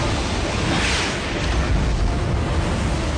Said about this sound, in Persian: آماده؟ حالا انفجار.